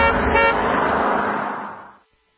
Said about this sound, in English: That's the roar of a 2023 Ram Power Wagon, and it might just become yours.